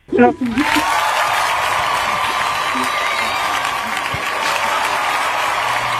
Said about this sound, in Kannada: Okay, ಸರಿಯಾಗಿ guess ಮಾಡಿರೋದಕ್ಕೆ ನಿಮಗೆ ಬರ್ಲಿ ಜೋರಾದ ಚಪ್ಪಾಳೆ.